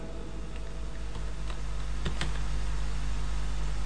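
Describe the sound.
Typing on a computer keyboard: a few scattered, light key clicks at an uneven pace over a steady hum and hiss.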